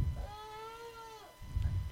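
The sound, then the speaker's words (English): A cat sitting under a coffee table chair gives a single drawn-out, fairly faint meow lasting about a second, with low rustling thumps around it. “So yeah, there's a ballsy cat sitting underneath the coffee table chair.”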